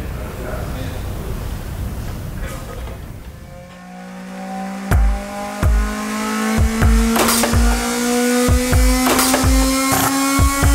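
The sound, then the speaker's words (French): Squealing car tires and clanking tool sounds form the beat of a Ferrari-themed electronic song. A noisy whoosh comes first, then a steady tone with sharp, evenly spaced percussive hits that grow louder. “on reconnaît les outils, on reconnaît les pneus qui vont donner vraiment le beat de la chanson”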